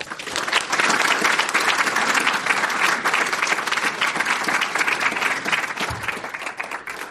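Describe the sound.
An audience applauds to welcome a speaker at a lecture in San Francisco. The clapping is dense and steady throughout, easing slightly near the end.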